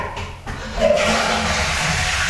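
A toilet flushes in a bathroom during a morning routine. After a short quieter start, a rushing swirl of water swells in and carries on as a steady wash to the end.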